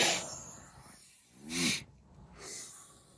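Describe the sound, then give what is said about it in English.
A deep breath taken at the close of a talk, heard as a few faint, airy breathing sounds rising and falling over a soft noisy background. “Let's take a deep breath before we leave.”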